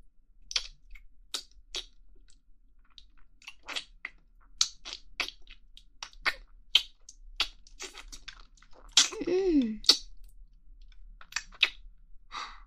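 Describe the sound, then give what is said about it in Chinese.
Ice cream is eaten in many soft, crisp mouth clicks and smacks. The rhythm is irregular and the sound stays quiet throughout. “我接下来继续吃雪糕的样子了，嘿嘿。来，我们继续吃。”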